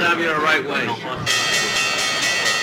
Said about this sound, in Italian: La campanella di Wall Street, questa, dell'apertura appunto delle contrattazioni americane